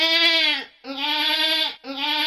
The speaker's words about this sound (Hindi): ई बकरी के तबीयत खराब भए गेलो, तनी देख लहो।